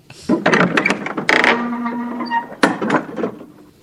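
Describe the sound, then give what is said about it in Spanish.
A box being opened gives off mechanical clicking and ratcheting, with a few sharp bursts and a sustained creaking tone in the middle. “vamos a ponernos en marcha, así que vamos a hacerlo buscando, abriendo la caja, ¿vale?”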